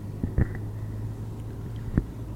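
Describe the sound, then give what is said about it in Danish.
A car driving on the motorway from Randers toward Aarhus: a steady, low cabin rumble of road and engine noise, broken by a few brief knocks. “nu drejer vi ned på, på motorvejen her fra Randers”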